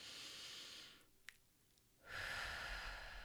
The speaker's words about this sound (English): take a deep breath. Let's do this together. Ready? Okay, one more.